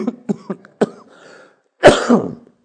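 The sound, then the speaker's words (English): A person with a tickle in the throat gives a quick run of short, dry coughs. A pause follows, then one louder, harsher throat-clearing burst, with no talk. “I'm sorry. A little tickle in my throat there.”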